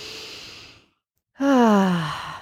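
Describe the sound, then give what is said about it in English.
Deep cleansing breaths: a soft, airy inhale through the nose, then a pause, then a louder voiced exhale out through the mouth with a sighing, falling pitch. “let's just take some nice deep cleansing breaths in through the nose, out through the mouth.”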